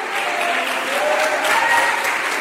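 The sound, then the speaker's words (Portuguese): A church audience applauds in praise of Jesus with even, dense clapping that keeps a steady level throughout. “Glorifica a Jesus uma vez mais com tuas palmas.”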